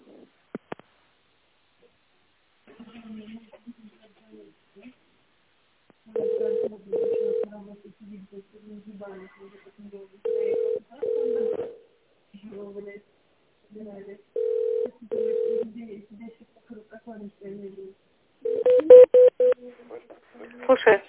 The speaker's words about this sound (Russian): Пожалуйста, наберите добавочный номер.